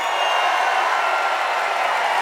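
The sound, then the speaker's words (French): An audience cheers wildly at a live show in Marseille, producing a dense, steady roar of crowd noise that holds at a loud level without breaks. “Ah ouais, mais le public est en folie, là.”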